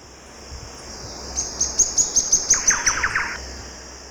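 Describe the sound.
Thrush-like wren song: a rapid run of many bright, high whistled notes, with lower, overlapping notes joining partway through, over a steady high insect drone.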